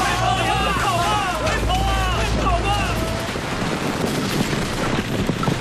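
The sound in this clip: Machine-gun fire in a radio drama battle scene, a dense, rapid clatter running the whole way through, with shouting voices over it in the first half.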